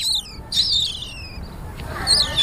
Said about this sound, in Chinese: 这里面还有3、4喜鹊啊。